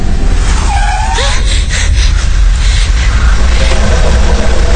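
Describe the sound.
A car brakes suddenly at a fork in the road, and a brief tire squeal cuts over a steady engine rumble.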